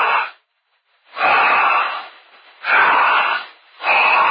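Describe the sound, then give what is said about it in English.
Loud breaths from a person, drawn in and let out in a few long, rushing, airy bursts with short pauses between, heard alone without talk. “If you had a master stethoscope on your ears to hear humanity breathe, every time they breathe in, they say,”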